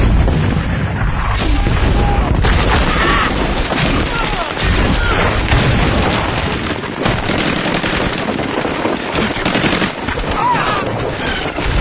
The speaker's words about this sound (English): Don't you have got some artillery right on top of it!